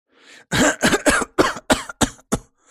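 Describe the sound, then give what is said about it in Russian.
A man coughs to clear his throat in a quick run of several harsh coughs, with bursts growing shorter toward the end, heard alone without talk. “Откашлялся Антон.”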